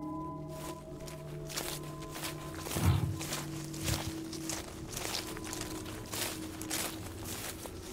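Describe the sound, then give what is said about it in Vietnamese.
Footsteps crunch on dry leaves in a garden at night. Many light, irregular rustling steps repeat over a low, steady background hum. “trong vườn cây vang lên tiếng chân người dẫm lên lá khô soàn soạt”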